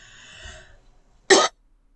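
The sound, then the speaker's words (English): A single throat-clearing cough from a person with a tickle in the throat: one short, loud, harsh burst that follows a faint, quiet lead-in. “Sorry, I've got to tickle the back of my throat.”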